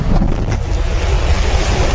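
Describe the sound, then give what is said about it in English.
Deep, loud roar of a SpaceX Starship rocket launching toward orbit: a continuous, heavy rumble dominated by low frequencies that holds steady without a break. “For the first time, SpaceX has launched its enormous Starship into orbit. 4, 3, 2, 1.”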